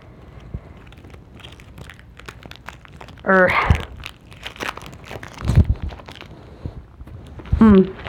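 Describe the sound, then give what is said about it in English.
Crinkling and tearing of a Kit Kat chocolate bar wrapper as it is opened: a faint, steady rustle broken by a few louder crackling bursts. “a Kit Kat bar, freaking open the damn thing”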